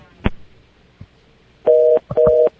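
A phone line tone after the caller hangs up: a sharp click, a faint tick, then two steady, even beeps of a held mid-pitched tone with a short gap between them.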